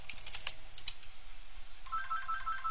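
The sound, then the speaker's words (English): A telephone rings with an electronic ringtone, a rapid run of high, repeating beeps in the latter half, preceded by a few sharp computer-keyboard typing clicks. “Sorry about the phone ringing.”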